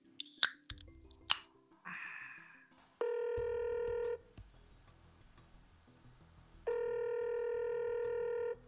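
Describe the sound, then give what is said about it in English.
A telephone line rings in two long, steady electronic bursts separated by a pause. Before them come a few short sharp clicks and a brief noisy burst as the call is placed. “You want to give him a call? Dial the number. I can't do it from over here. I'm dialing.”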